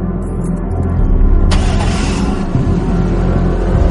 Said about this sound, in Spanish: El guardaespaldas baja la mirada y arranca.